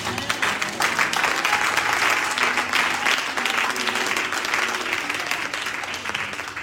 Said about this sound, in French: Acclame Dieu pour sa parole.